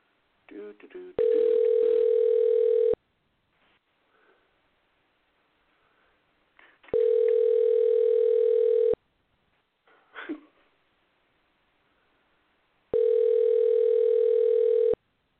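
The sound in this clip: A telephone tone after a call is dialed, made up of three steady, evenly spaced two-second beeps with long pauses between them. Faint clicks and small noises fill the gaps.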